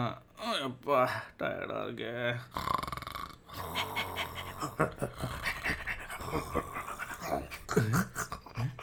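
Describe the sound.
A dog named Tommy pants and whimpers. Many rapid breaths and whines rise and fall in uneven bursts at a fairly quiet level.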